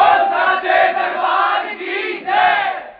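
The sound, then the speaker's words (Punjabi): A devotional crowd shouts a Jaikara in praise of the Mother goddess at a religious singing gathering, a loud sustained mass cry of many voices that swells again near the end. “ਇੱਕ ਵਾਰ ਜ਼ੋਰਦਾਰ ਜੈਕਾਰੇ ਨਾਲ ਇਜਾਜ਼ਤ ਦਿਓ ਜੈਕਾਰਾ ਉੱਚੇ ਭਵਨਾਂ ਵਾਲੀ ਦਾ”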